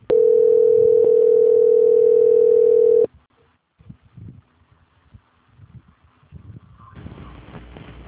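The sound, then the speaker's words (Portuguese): A steady single-pitch telephone tone sounds during a phone call transfer, loud and unbroken for about three seconds. It cuts off to faint rustling and low noise, with a soft hiss rising near the end. “Só um minuto, por favor, que eu vou transferir a sua ligação. Ok. Transferência.”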